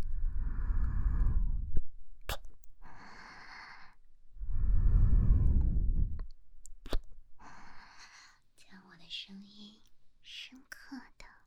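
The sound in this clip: Slow, soft breathing during a hypnotic induction: two long, breathy exhalations stand out, each lasting about two seconds, with quiet whispering between and after them.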